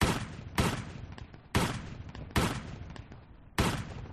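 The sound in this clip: Gunfire sound effect: five loud, sharp shots at uneven intervals, each a sudden crack trailing off into a rumbling decay before the next.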